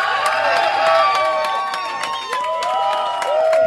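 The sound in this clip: A crowd cheers, whoops and claps to welcome Mötley Crüe drummer Tommy Lee at a show. High whistling cheers rise and fall over a sustained, loud roar of clapping.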